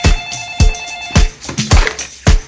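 A telephone rings loudly in repeated, evenly spaced bursts, each a sharp metallic strike with a sustained ringing tone behind it. No voices are heard.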